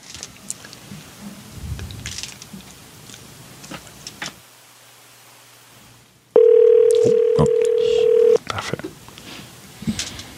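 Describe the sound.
Telephone call tone while a phone is dialed and rings: a steady, single-pitched tone holds for about two seconds, with people talking before and after it.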